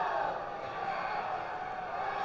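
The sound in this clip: Baseball crowd roaring at Jackson Field in the ninth inning as the Lugnuts trail Dayton 5-2, a dense, steady wash of cheering that stays at an even level throughout without distinct peaks.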